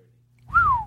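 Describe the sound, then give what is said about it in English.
A person whistles a single short note into the microphone, rising slightly and then gliding down in pitch, heard alone over a faint low hum. “Shouldn't whistle into the mic.”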